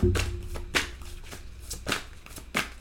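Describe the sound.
Tarot oracle cards are shuffled in a few quick papery riffling bursts separated by softer rustling, with no talk over them.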